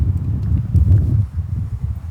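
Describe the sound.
Strong wind blows in uneven, gusty surges, a low, rough rumble that buffets and swells throughout.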